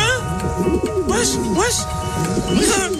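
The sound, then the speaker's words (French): Pigeons cooing in repeated low, warbling calls that waver up and down throughout, with talk mixed in. “c'est Jaja des anges qui a peur des pigeons. Il se passe quoi là derrière toi?”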